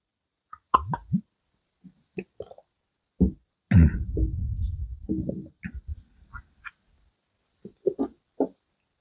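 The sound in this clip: Gulps and wet plopping from someone drinking come as scattered short sounds, with a denser, louder gurgling stretch in the middle.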